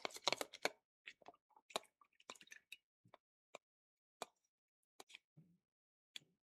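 Objects dropped into a glass filled with colored water during an experiment make many small plops and splashes, a quick cluster at first, then sparser single drops.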